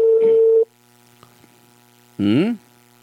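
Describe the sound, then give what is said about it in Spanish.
A telephone tone sounds while a call is placed to a municipal office. A steady, unwavering tone lasts about half a second, then low hum, then a brief wavering burst. “Estamos llamando ahora al gerente Jaime Luis Almerco.”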